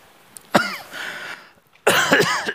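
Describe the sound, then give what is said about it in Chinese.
Dry heaving and retching coughs from someone with a sore throat: two harsh, rasping bursts, the second longer and broken into several rough pulses, with no speech. “这咋的？看我头像的干呕啊！”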